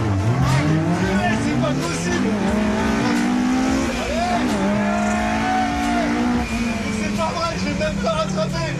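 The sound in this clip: A McLaren race car in a racing video game roars with a loud, continuous engine whine whose pitch keeps rising and dipping as it shifts and revs, sustained throughout.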